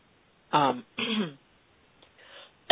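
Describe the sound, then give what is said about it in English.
A person clears their throat after something went down the wrong way: two strong, rasping, voiced bursts come in quick succession, followed by a softer, fainter one. “excuse me for a second. Sorry, I had something go down wrong throat.”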